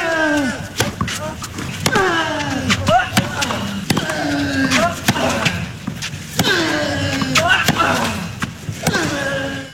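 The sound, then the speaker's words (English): Tennis player Rafael Nadal grunts while hitting, each sharp racket strike paired with a loud, harsh vocal grunt that drops in pitch. Many shots follow in a steady, repeating rhythm. “When did Rafa start grunting this loud?”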